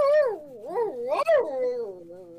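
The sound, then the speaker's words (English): A human voice imitates a howl during a tabletop role-playing game: a loud, tonal, wavering wail that swoops up and down in pitch several times, with a brief break midway before it trails off. “starts to howl.”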